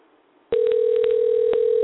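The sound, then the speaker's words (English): Telephone being redialed to reconnect a dropped caller: after a quiet start, a steady, loud, mid-pitched dial tone sounds, broken by several short clicks. “I think we've lost Erin. Let me get him back on. Let's try here again.”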